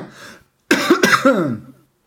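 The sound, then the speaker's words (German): A person with a frog in the throat coughs and clears their throat. A soft throaty rasp is followed by a few harsh, rough cough bursts in quick succession that trail off into a gravelly clearing sound. “Oh, Frosch im Hals, scheiße, jetzt habe ich nichts zu trinken mehr.”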